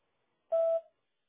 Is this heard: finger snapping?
no